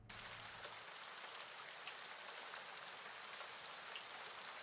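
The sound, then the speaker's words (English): Steady rain falls as a continuous, even hiss of many drops, unbroken and at a constant level throughout, with no voices. “the coldness that seems to sort of emanate from him comes not to a stark end, but lessens, and the snow returns once again into rain.”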